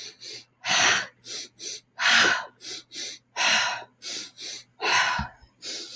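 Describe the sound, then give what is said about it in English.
Forceful breathing during an ocean-wave breath exercise: a steady series of many sharp, breathy exhales, with stronger blasts alternating with softer ones and brief silences between breaths. “Continue in that same manner. Forceful exhale.”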